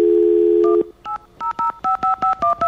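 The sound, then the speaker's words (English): Telephone keypad tones while dialing a number: a steady dial tone holds for under a second, then stops, followed by a quick run of short, evenly spaced touch-tone beeps, each a clean electronic double pitch. “you see, I'm dialing the right number.”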